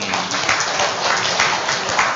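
A group gives a big round of applause, a steady, even rush of many hands clapping together with no clear pauses.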